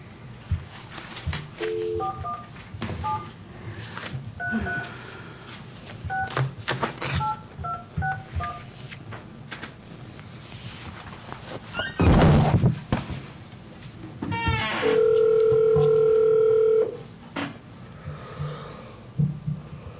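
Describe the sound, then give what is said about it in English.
Touch-tone telephone dialing during a meeting: a few bursts of short keypad beeps, then a steady electronic ringing tone that holds for about two seconds. “I was going to try to call Mr. Ingram one more time, if I can.”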